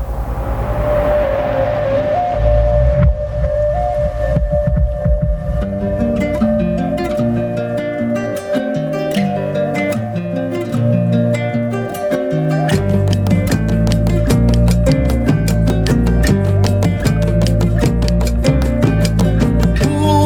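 Instrumental music plays loudly throughout, opening on sustained tones before a steady rhythmic percussive pulse enters early. Around the midpoint a heavier low bass layer joins and carries the groove to the end.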